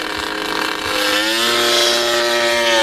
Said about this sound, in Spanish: A lo mejor hemos pillado una moto de MotoGP, o sea, no en un barrizal.